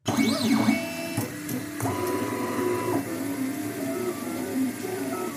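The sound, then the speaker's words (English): A 3D printer printing handheld plastic microscopes whirs continuously. Its motors give high warbling tones that sweep up and down at first, then settle into steady pitched hums and buzzes with brief changes in tone. “Now that's the sound of a 3D printer”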